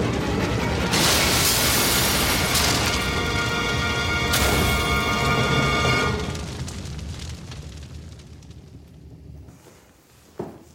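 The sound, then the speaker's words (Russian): A truck tumbling off a high cliff and exploding: a long, loud crashing roar with sharp bursts that fades away after about six seconds, then a single brief knock near the end. “а грузовик, кувыркаясь, падает с высокой кручи и взрывается.”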